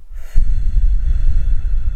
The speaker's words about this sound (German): Atme mit mir ein und atme mit mir aus.